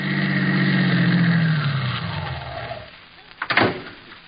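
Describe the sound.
A car engine, played as a staged sound effect of a car driving up, runs steadily and then winds down in pitch as the car slows to a stop, followed by a few sharp clunks near the end.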